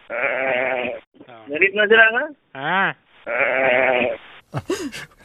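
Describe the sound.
Sheep or goats from a herd bleat down a phone line: a few wavering, harmonic bleats rise above the narrow, muffled call audio, with voices talking between them.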